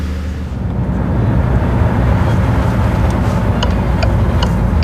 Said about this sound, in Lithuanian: Autobusiukas įsuka į pilkai baltų daugiabučių namų kiemą.